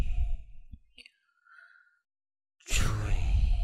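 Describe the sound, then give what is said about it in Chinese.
Breath blown out through the mouth in a breathing exercise: a loud, breathy rushing hiss lasting about a second, preceded by softer breathy sounds and a short silence. “因为我们呼气的时候是用口嘛，口往外呼气嘛， 嗯， 吹。”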